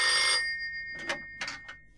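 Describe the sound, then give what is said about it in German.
A telephone rings, opening with a long, loud bell trill followed by a few shorter, fainter ringing bursts, with no talk. “Hören Sie, das Telefon, was soll ich machen? Na Mensch, gehen Sie ran!”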